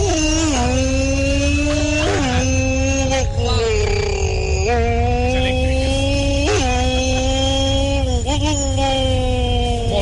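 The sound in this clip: A superbike motorcycle engine roars continuously and loudly, its whining pitch jumping repeatedly through several gear changes.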